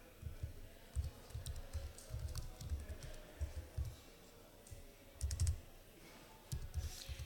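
Computer keyboard typing during a live software demonstration at a hacker conference: irregular bursts of quick clicking keystrokes separated by short pauses, steady and moderately loud, with no talk.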